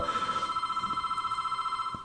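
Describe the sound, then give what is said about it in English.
A telephone rings for a radio call-in, a fast, steadily pulsing bell that trills evenly for about two seconds before cutting off. “It sounds like our caller calling in right now.”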